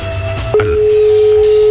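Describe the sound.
A telephone call rings while waiting for an answer: a single steady, mid-pitched ringback tone sounds for just over a second over a low background hum.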